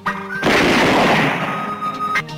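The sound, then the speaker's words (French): A bomb explodes in a sudden loud blast, and the broad roar holds for nearly two seconds before cutting off abruptly. “Et qu'est-ce que c'est, d'après toi? Pour moi, c'est une bombe.”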